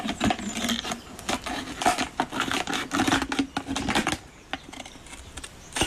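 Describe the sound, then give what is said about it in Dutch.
Scissors snip through the bottom of a plastic PET bottle, making many rapid, crunchy cuts over about four seconds. The cutting then trails off into a few faint clicks. “Ik zet de schaar in de bodem van de petfles. Ja. Voorzichtig dat je niet je vingers eraf knipt.”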